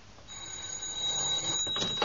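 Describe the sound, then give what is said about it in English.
A telephone bell rings in a steady, fairly faint, high-pitched trill that runs almost unbroken for about two seconds. “Now, what can that be? Well, obviously it's somebody ringing up, sir.”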